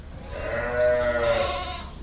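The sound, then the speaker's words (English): A sheep bleats once in a barn on a farm that supplies Roquefort milk, as the flock gathers before milking. The single drawn-out, wavering bleat lasts about a second, over a faint background murmur. “The sheep know what to do. They gather in the barn,”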